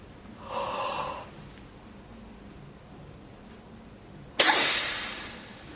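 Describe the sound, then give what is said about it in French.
Reverse breathing exercise: a soft inhale through the mouth, then a long pause while the air is held, then a sudden loud, rushing exhale forced out through the nose that fades away. “nous allons inspirer par la bouche et expulser par le nez. Je vous montre l'exercice.”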